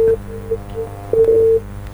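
A telephone line tone after a call drops during a phone-in: short beeps at one steady pitch, irregularly spaced, then a longer held tone near the end.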